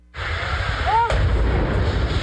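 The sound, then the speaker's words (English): Explosions in a rural northeastern Pennsylvania town, blasts that destroyed houses on a summer morning: a loud, sustained low roar with one sharp, cracking burst about halfway through. “It's the moment explosions shattered the quiet summer morning in this rural northeastern Pennsylvania town.”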